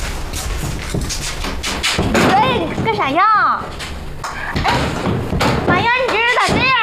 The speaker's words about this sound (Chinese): 我打开。 不开。 你打紧了。 别敲了你，不开。